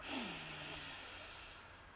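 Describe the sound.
A deep breath drawn in during a guided breathing meditation: a long, airy hiss of inhaled air that starts strong and gradually fades over about two seconds, with no talking.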